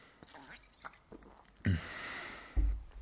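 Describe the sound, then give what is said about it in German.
A sip of a drink: a soft, airy slurping draw that lasts about a second ends in a low, dull gulp, faint and heard without talking. “Jetzt muss ich schon einen Schluck trinken.”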